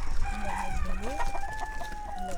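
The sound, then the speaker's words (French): Hens and roosters of various local and ornamental breeds cluck and crow together, with sustained crowing calls and one rising crow over steady, busy clucking that continues throughout. “Différentes variétés de poules. Alors des races locales et des races d'ornement.”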